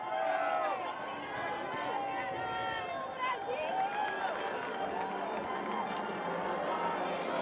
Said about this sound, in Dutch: Een zonovergoten Sint-Pietersplein, moet ik zeggen, met een, zoals u kan horen, uitzinnige menigte van pelgrims die naar Rome gekomen zijn om de Heilige Vader te horen en te zien.